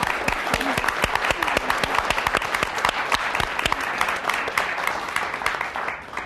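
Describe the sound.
Audience applause thanking the guests at the close of a panel forum: dense, even clapping holds at a steady level for about six seconds, with no talk over it.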